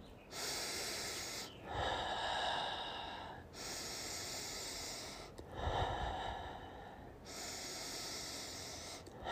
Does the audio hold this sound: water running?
no

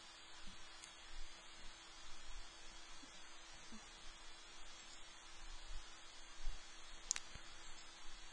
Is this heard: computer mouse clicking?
yes

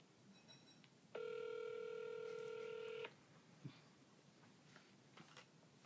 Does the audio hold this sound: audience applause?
no

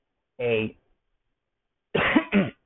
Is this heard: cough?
yes

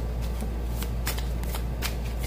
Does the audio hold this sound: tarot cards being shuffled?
yes

